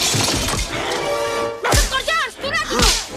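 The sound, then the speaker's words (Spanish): A whip lashes during a fight with a guard in an Indiana Jones film, with two sharp, loud cracks cutting through voices and other action sounds. “Coloca al cuello del guardia el látigo que le lanza tapón.”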